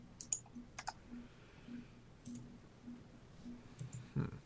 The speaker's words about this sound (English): I heard your click, so I just clicked it.